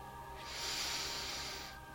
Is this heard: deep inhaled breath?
yes